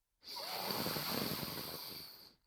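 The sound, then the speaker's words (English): A single long breath is drawn in through the right nostril while the left is pressed shut: a steady, airy hiss lasting about two seconds, heard alone with no talk. “Press down on our left nostril. We breathe in through our right nostril.”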